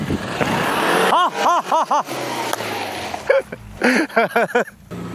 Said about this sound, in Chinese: 就是有点困住了， 困住了，是不是？别松油门，走，给我走